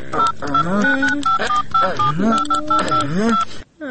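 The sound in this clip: Telephone keypad tones as a number to a hospital emergency line is dialed: many short, pitched beeps at a steady pace under a person's voice, ending abruptly.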